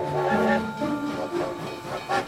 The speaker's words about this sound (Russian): Поезд из Риги трогается и медленно набирает ход.